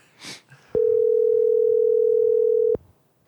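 A ringback tone plays on an outgoing phone call: one steady, even tone held for about two seconds, after a brief soft noise at the start.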